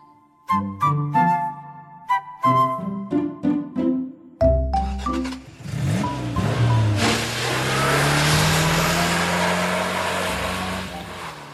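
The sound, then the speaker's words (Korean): A car driving off: a few short tonal notes give way to a low engine that swells into a loud, steadily rising roar of acceleration and road noise filling the second half. “마음이 심란해서 차를 몰고 밖으로 나가다가”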